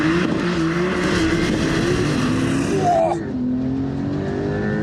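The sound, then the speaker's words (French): Car engine launching under launch control at full throttle on a very slippery wet track, a loud, continuous roar that holds strong, then dips sharply near the end as if shifting gear before pulling again. “pied à fond sur l'accélérateur. J'ai un petit affichage hold qui me dit que je suis en procédure. Launch control, c'est parti”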